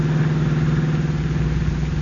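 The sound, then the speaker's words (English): A car engine hums steadily as the car rolls down a steep hill on a narrow country road, a loud, even drone with no talk. “Reaching the end of the waterfront road, the car swings into an old, little-used highway and speeds into the country. Turning into a narrow road, it is now rolling down a steep hill”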